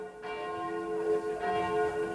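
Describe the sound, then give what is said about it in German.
Church bells ring over the market square in the old town of Bad Neuenahr-Ahrweiler ahead of a memorial ceremony: a steady, sustained peal of overlapping metallic tones, with no voices. “Man hört im Hintergrund schon Kirchenglocken.”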